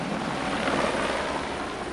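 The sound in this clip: A helicopter roars at a busy private heliport in São Paulo. The sound is a loud, steady, dense whooshing that carries through the whole clip with no clear blade beat and no voices.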